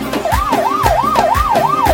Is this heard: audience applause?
no